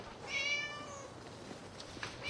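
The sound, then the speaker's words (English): A pet cat meows from up a tree. It gives a single drawn-out, high meow that is fairly faint, followed by quieter low background noise. “I'm trying to get Mrs. Foley's cat Fluffy out of that tree.”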